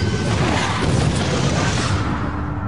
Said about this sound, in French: L'avion a explosé.